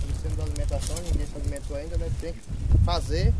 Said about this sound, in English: It's hot on my face. The wind is kicking it up right now.